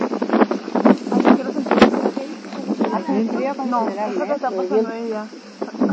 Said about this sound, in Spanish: El viento ya lo siente.